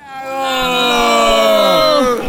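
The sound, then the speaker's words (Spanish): A group of people shouts a battle cry as they walk with a travelling brass fanfare band in the street. One loud, sustained, many-voiced yell swells quickly and holds for about two seconds. “Ese grito de batalla es el grito de la gente que me acompaña”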